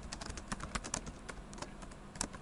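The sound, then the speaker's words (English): Fingers type on a computer keyboard in a quick, irregular flurry of many light key clicks, quiet and without talk. “If I type something”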